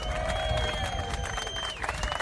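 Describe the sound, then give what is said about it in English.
Applause from a crowd welcoming guests from the Davidoff and AVO cigar brands: dense, steady clapping with some cheering, and a sustained tone runs through it. “Give it up for the folks from Davidoff and AVO.”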